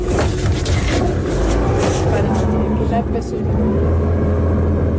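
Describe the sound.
Boat motor on a reservoir, a steady low engine drone running unbroken through the whole stretch, with voices heard at times over it.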